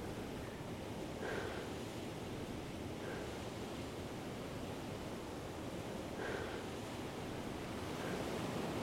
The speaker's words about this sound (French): Et puis, quand on se retourne, on fait face à la mer.